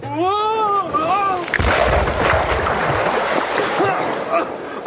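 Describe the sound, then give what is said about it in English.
A surfboard snapping in half on a beach in Acapulco: a brief tonal voice gives way to a sudden loud crack, followed by a rushing, churning splash of water that stays loud and noisy to the end. “The infectious force of the famed fruity overcomes Dr. Acula's dancing bone, and the forceful friction from his fruity feet fracture his surfboard in half.”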